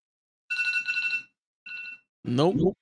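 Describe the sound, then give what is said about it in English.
A phone alarm goes off as two short, bright electronic ringing tones, the first longer than the second, and then a person briefly speaks. “The alarm's still going off. Wait, the alarm's going off on your phone?”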